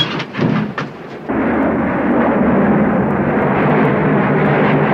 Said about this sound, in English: The plane continues circling as the daylight begins to fade.